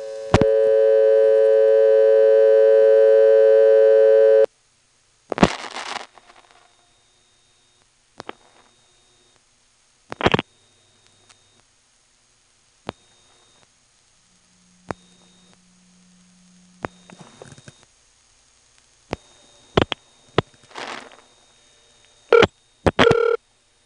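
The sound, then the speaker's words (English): Telephone intercept tones on a call to an out-of-service number in the 625 exchange: a steady buzzing harmonic tone for about four seconds, then scattered clicks, short bursts of line noise and a brief low hum, with no voices. “Now here's an intercept call in 625, a regular intercept number.”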